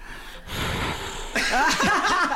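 A person demonstrating heavy breathing: rough, breathy inhales and exhales that grow louder and more rasping in the second half, with gasping and snorting edges.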